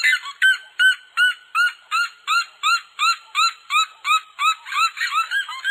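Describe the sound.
A red-legged seriema calls in a loud, high, yelping series of many evenly spaced notes, keeping a steady rhythm that grows denser toward the end.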